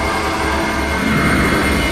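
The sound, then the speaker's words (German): An aircraft roars through a storm in an audio drama effect: a dense, loud, continuous rushing drone that holds steady without breaks. “Wir müssen durch das Maul fliegen. Sonst erfasst uns der Sturm und wir sind erledigt.”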